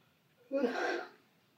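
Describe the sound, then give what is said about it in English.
A yawn, one drawn-out breathy exhalation lasting well under a second, opening with a brief voiced tone and trailing off softly with no speech around it. “We don't have the excuse to be yawning this much.”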